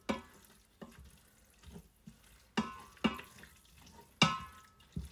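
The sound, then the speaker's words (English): Minced meat is stirred in a hot pan. Several soft scraping strokes come at uneven intervals over a faint, low sizzle, and the whole thing stays quiet. “Now I constantly stir my mince. Some people don't, but I just find it's easier to kind of keep track of where I'm at with it.”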